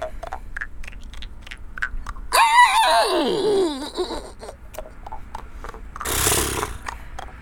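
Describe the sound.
A person's voice imitates a horse's neigh: a wavering, strained whinny that drops in pitch over about a second and a half, set against steady background noise.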